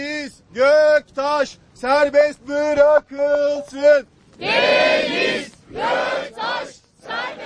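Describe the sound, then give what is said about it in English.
Dozens of protesters chant a rhythmic slogan in Turkish outside an Istanbul courthouse in the rain: clipped, evenly spaced syllables from many voices, then a louder, rougher swell of shouting crowd voices. “Well, what you heard there were chants of Free Deniz Göktaş.”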